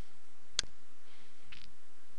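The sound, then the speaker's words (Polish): Single crisp computer mouse click on a link, a short sharp tick heard alone against faint background hiss. “Klikamy na niego.”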